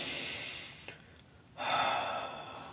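Slow, audible breathing, an unforced breath in and out demonstrated as calm breathing rather than a sigh: a soft airy hiss, a short quiet pause, then a second longer, louder breath, with no talk.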